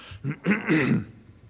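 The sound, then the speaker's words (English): Throat clearing from a speaker bothered by allergies: a few short, rough, gravelly bursts in quick succession, fairly loud, then fading into quiet. “When it gets that bad, you just stop and clear your throat.”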